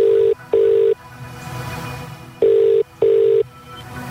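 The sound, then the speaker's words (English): A telephone rings out after a number is dialed: two pairs of steady, loud, mid-pitched ringback tones, the beeps in each pair close together and the pairs separated by a longer pause. “We are dialing.”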